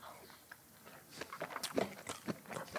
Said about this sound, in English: I take the chia pudding out of the fridge, add some fresh fruit and peanut butter. Okay, here's my bite and my review.